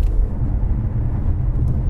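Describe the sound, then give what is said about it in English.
A car engine drones steadily while driving quickly along twisting, broken-surfaced B roads, a continuous low rumble with slight fluctuations and no voices over it. “You can hear it. The engine wants to play as we nip around these sort of, I suppose these are B roads, aren't they?”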